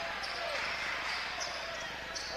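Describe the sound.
A basketball being dribbled on a court during a game, faint and blended into steady crowd noise and commentary.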